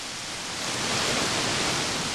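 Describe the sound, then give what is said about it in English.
Spring water from Oregon's ground flows out of and into lava rock. It makes a steady, dense rushing hiss that swells slightly after the first second and then stays constant. “Water coming in from its most pure source, right out of the earth, and disappearing right into the earth.”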